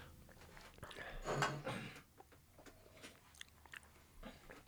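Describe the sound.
Chewing and biting on a cheese sandwich: a louder, crunchier burst of bites early on, then softer, scattered mastication sounds that continue to the end, with no talk.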